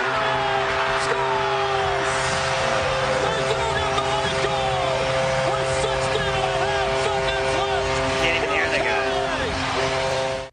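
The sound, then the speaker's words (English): A hockey arena goal horn blares after a goal: one loud, sustained, multi-toned blast that runs almost the whole clip over a broad crowd roar, then cuts off at the end. “you can't even hear the guy telling you who scored the goal because of that stupid horn.”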